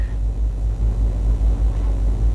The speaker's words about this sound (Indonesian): Dapat kita lihat bersama situasi arus lalu lintas di Simpang 4 Gatot Subroto dari Jalan Gatot Subroto menuju Jalan Pangeran Hidayatullah.